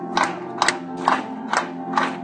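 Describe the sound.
Church audience shouting in five loud, evenly spaced bursts of acclaim over a sustained musical tone.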